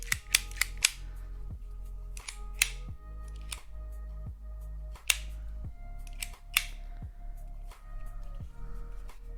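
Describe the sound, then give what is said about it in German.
A cable stripping tool clicked over and over on a desk, giving many sharp, quiet snaps at an uneven pace, some in quick pairs, over a low steady hum. “Das ist ganz was anderes. Das ist ein Kabelisolier-Dingsbums.”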